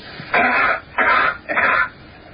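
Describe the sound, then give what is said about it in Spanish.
Three short, breathy cough bursts at an even pace, loud and alone, presenting a cough as heard on Earth and as it would sound on Mars under the same conditions. “la primera entrada es la tos en la Tierra. La tos en la Tierra. Y la segunda ya sería la tos o si se produjera en Marte en las mismas condiciones.”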